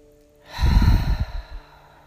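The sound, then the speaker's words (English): A heavy breath released out through an open mouth during a guided breathing exercise, one long, loud, breathy exhale that rises and slowly trails off. “And you'll take a couple of big breaths in through the nose and then release everything out the mouth 3 times.”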